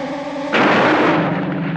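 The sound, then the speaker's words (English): A single gunshot fired at a snake: one sudden, loud, sharp blast followed by a long, rough, noisy tail that slowly thins out. “The grandfather just busted out a gun. Child? And with precision, take it out. Shooting just blasted the snake.”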